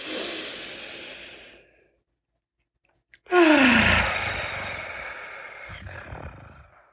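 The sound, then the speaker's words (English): Two deep breaths taken to clear the mind before a focusing exercise: a long airy breath that fades out, a pause of silence, then a louder rushing breath with a strong onset that tapers slowly. “let's start off with two deep breaths to clear our mind and get ready. So inhale.”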